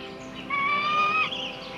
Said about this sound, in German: Das ist doch kein Rabe, das ist ein Adler.